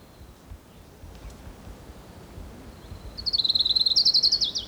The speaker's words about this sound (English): Here's Orange Crown Warbler number 3.